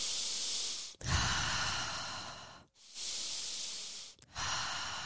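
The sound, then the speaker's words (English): A deep cleansing breath, long and airy, drawn in and let out in slow turns with brief pauses between. Steady and soft, with no talk. “Just want to do a quick cleansing breath with you all before we get into this conversation.”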